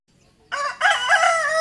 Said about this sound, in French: Les coqs chantent et les jours paraissent, tous et debout dans les villages. Le coq chante.